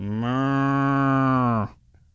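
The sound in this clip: A cow mooing: one long, loud, steady low moo that holds for more than a second and a half, then cuts off abruptly into near silence.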